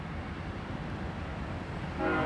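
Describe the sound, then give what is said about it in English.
A passing train rumbles in a steady, dense low roar, and a horn sounds briefly at the very end. “Now I got a train and a dog.”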